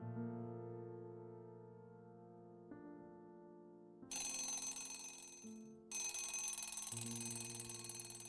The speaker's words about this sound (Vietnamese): Tiếng chuông báo thức khủng khiếp ấy lại vang lên.